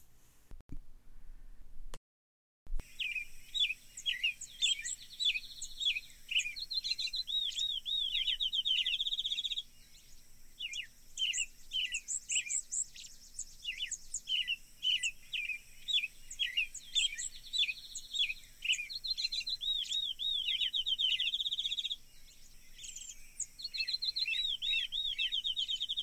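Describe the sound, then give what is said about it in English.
Birds sing in a dense, continuous chorus of bright chirps, trills and whistles in a recreated soundscape of birds at a 1930s–40s shack, without human sounds. Many overlapping calls run throughout, with only a brief break near the start and no voices. “I'll play you the soundscape that was created to show us what the sounds of the birds at the shack would have been in the 1930s and 40s, the reconstructed landscape, without the human sounds that are inevitably there today.”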